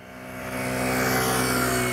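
A car drives past at 40 km/h through a slalom during a driving lesson, its steady engine hum swelling louder over the first moments and then holding even and strong.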